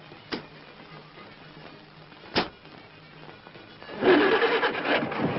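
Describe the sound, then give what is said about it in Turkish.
A decorated wedding truck's engine starting: two sharp clicks separated by a short pause, then near the end the engine catches into a loud, steady, rumbling roar. “kamyonu çalıştırdı ve gittiler.”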